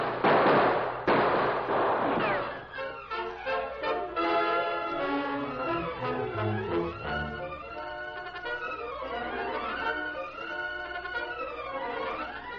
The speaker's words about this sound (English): Look out! That shot comes from gully back there.